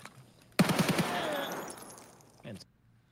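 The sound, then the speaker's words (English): A UMP submachine gun fires in a video game: a quick burst of a few sharp, rapid shots, then a long fading rumble and a brief short noise near the end. “It's a slow fire rate. It kind of sounded like a UMP, but I don't know. I think it's a UMP.”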